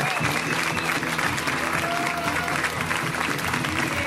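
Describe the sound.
Dense, continuous audience applause for a comedian at the UCB Theater, steady and loud throughout, a full crowd clapping without pause.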